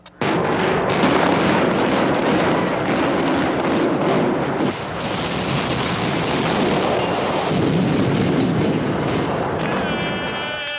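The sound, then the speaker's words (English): A high-rise building is brought down by implosion demolition: sharp crackling bursts of charges give way to a loud, sustained rumbling roar of collapse that continues for about ten seconds. “That was the sound of a high-rise building being demolished.”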